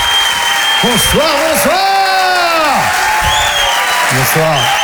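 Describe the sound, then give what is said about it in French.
An audience ovation at a comedy show, with sustained loud applause and cheering and piercing whoops and whistles rising and falling above the roar. “Je vous demande de faire un maximum de bruit. Une ovation s'il vous plaît pour Selig.”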